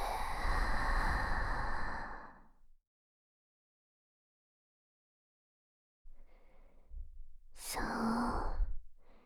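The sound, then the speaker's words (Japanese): A long, deep exhale that fades into silence during a guided breathing exercise, followed after a pause by a strong, rushing inhale. “大きく息を吸って、吐いて。”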